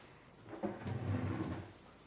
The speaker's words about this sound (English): has taken a form out of his desk drawer